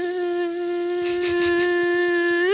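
Mosquito buzzing at night in Iceland, a loud, steady, thin whine with bright overtones that holds level, then rises in pitch at the very end.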